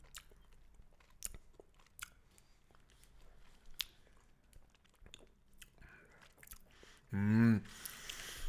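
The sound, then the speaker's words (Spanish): Crunchy chewing of a scorpion and a cocopache insect, with scattered crisp bites and squishes followed by a short hummed voice near the end. “Yo pruebo el alacrán y tú el cocopache.”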